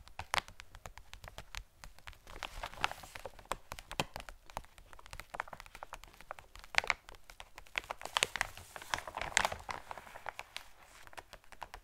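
Crisp crinkling of an individual plastic packaging bag holding a swimsuit as it is handled, with many soft, quick crackles and rustles running steadily throughout at a low level.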